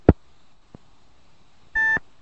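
Short electronic beep from a phone system hooked up to a computer. A sharp click and a fainter tick come first, then one brief, bright tone about a quarter-second long. No voices are heard.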